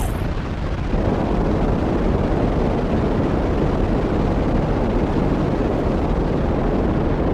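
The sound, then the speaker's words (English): A rocket firing, heard as a continuous, dense, roaring rush of noise with no voices. It stays loud and steady for the whole stretch. “All right, so I guess we fire the rocket now”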